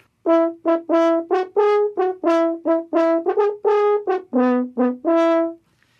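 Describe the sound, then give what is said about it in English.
A valveless horn pitched in E plays a lively melody of many short, detached notes that rise and fall, with a clear brassy tone and no other sounds. “So maybe you had an E horn, it was pitched on an E like this.”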